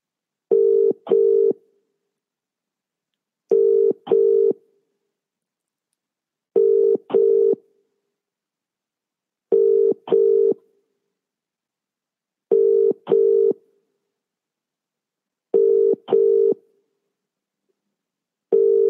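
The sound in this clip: Telephone ringing tone on an outgoing call to a phone-in caller: a steady low double beep that repeats about every three seconds with silence between, alone and unanswered.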